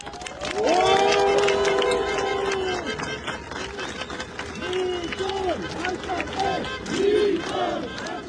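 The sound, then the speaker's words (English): Supporters of Armenia's prime minister cheer and chant loudly as he arrives at his campaign offices after an election win. Rhythmic shouted calls rise and fall in repeated bursts, with talking mixed in. “The Prime Minister was cheered by his supporters as he arrived at his campaign offices shortly before declaring victory.”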